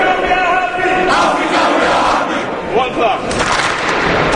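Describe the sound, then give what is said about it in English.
About sixty teenage basketball players at a camp shout a thunderous welcome to NBA coaches and players on their first day, a loud, sustained roar of massed young voices with whoops and rising yells. “The 60 teenage players give a thunderous welcome to the NBA coaches and players on their first day at the camp.”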